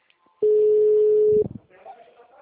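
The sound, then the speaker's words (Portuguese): A steady, mid-pitched telephone tone sounds once for about a second after a dropped call, then cuts off, and a faint voice follows. “a ligação caiu. Oi, caiu.”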